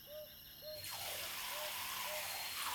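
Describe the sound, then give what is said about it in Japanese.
Hot water poured to rinse, a steady hissing rush that starts after a brief pause and continues to the end, with faint repeated chirps sounding alongside. “ではまたお湯行きます。”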